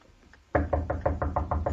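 Eight quick, evenly spaced knocks sound on a door as suitors arrive, following a few faint taps. The knocks are loud and steady, with no voices.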